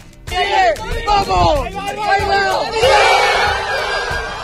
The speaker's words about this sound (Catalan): Així de contents estaven els estudiants de la Universitat Politècnica en veure com el coet Origin ha arribat als 10,8 quilòmetres d'altura.